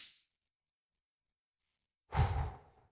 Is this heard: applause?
no